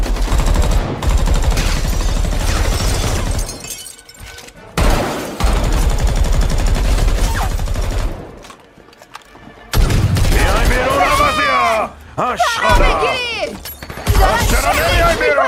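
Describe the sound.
Gunfire in a firefight: repeated bursts of dense, loud fusillade and machine-gun fire, broken by brief pauses. Voices talk and shout over the shooting in its later part.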